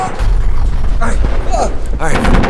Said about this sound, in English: Oh, more missiles!